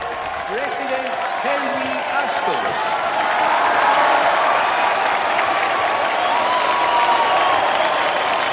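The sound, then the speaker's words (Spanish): A crowd applauds steadily as the president arrives at a public gathering, where the mayor welcomes him before a speech. The clapping is a dense, continuous wash from start to end, with a voice heard briefly early on. “La gente aplaude al llegar el presidente”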